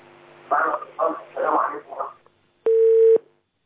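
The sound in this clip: A single steady telephone tone marks an incoming call connecting on a call-in line. It is a loud, flat beep of about half a second that comes after a few seconds of indistinct voice.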